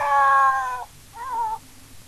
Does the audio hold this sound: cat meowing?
yes